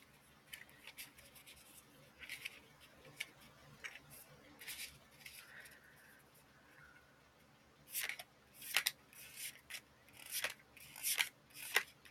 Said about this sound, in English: I love the sound of tarot cards and oracle cards being flipped.